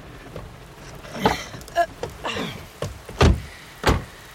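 Car-door sounds as a passenger gets out of a car: a few thumps and clunks spaced apart, with the heaviest knocks toward the end amid soft rustling movement.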